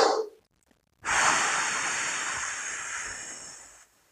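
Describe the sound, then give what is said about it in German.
A long, steady exhale from a breathing exercise for saxophone practice, counted out over several beats: a breathy rush of air lasting about three seconds that slowly tapers off, heard alone after a short quiet gap. “Also ich atme eins, ein und atme dann drei, vier Schläge aus. Ich mache es mit drei. Jetzt mit vier.”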